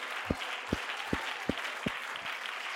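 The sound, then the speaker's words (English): Congregation clapping hands during a lively church service, with steady rhythmic claps and a low thud on each beat over a dense wash of crowd applause. “come on, clap your hands to the Lord.”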